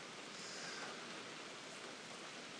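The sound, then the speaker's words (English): Heavy rain pouring down in darkness in Wicklow: a dense, unbroken hiss that stays level and steady throughout, with no distinct drops or other sounds standing out. “it's actually chucking it down. It's dark and it's raining heavily”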